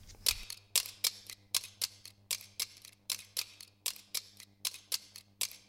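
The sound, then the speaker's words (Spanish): Music played on scissors and a bottle, a folk tune on household instruments: sharp metallic snips and clicks in a quick, steady rhythm, fairly loud and alone throughout. “hemos elegido el tema, que está interpretado además por unas tijeras y una botella, y que se titula O desprecio”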